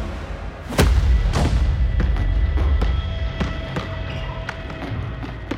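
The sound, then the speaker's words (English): A ball thudding back and forth across a court during a ball game: a few heavy, low bounces followed by lighter, sharper taps over a steady rumbling background. “The players bounced the ball back and forth from one side of the court to the other.”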